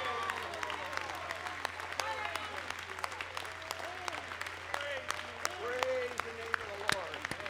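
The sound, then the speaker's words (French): Congregation applauding and calling out in acclamation at a church service, with many clustered claps and raised voices mixed into a faint, continuous wash of clapping. “Loué soit le nom du Seigneur. Acclamons-lui fortement ce soir.”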